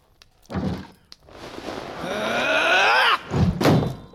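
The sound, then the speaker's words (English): A sword swing blocked by a raised shield in a video game, heavy thuds at the start and end around a sustained, rising tonal sound. “Now, this time, when I swing at you, I want you to raise your shield. Hold the left stick in the direction of your target to block. Are you ready? Sure. Raise your shield.”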